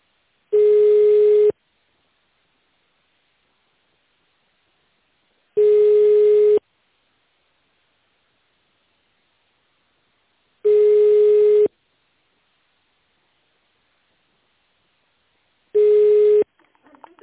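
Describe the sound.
A telephone line tone plays while a call is transferred to an information desk. Four long, steady, even-pitched beeps sound at regular intervals, with silence between them.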